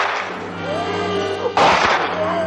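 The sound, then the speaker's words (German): In a radio drama, a single sharp gunshot blasts out over voices, a loud burst followed by a short decay. “Sir Henry. Schießen Sie. So schießen Sie doch endlich.”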